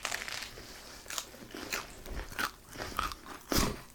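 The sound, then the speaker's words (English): Crunchy food is bitten and chewed in a series of crisp, crackling crunches at an uneven rhythm. The sound is quiet and close, with no talking over it. “Can you guys hear the crunchiness?”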